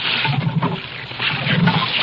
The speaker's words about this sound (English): Now he's pumping the pump handle, which will supply the power for this great space vehicle.